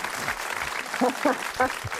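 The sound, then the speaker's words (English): Studio audience applause, a moderate wash of clapping with voices talking over it. “Well, certainly our studio audience, a round of applause for them all.”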